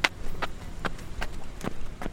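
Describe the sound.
Running footsteps of two people jogging together in Central Park on a fall day, a steady rhythm of about six light thuds, evenly spaced at a brisk pace.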